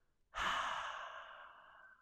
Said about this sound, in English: Exhale all the air from your lungs.